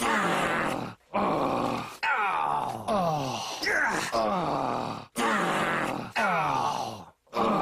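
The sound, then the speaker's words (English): Cartoon characters groan back and forth at each other in a long string of drawn-out, wavering moans separated by brief pauses, each voice sliding up and down in pitch. “They say, to each other, just back and forth, and just looking at each other and groaning.”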